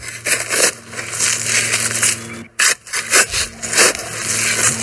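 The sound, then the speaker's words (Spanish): A shovel digging, with many rough scraping and crunching strokes in an irregular rhythm, briefly broken by a short silent gap midway and fairly loud throughout. “Están cavando. Están con una pala, ¿no? Están cavando, es una cosa de cavar.”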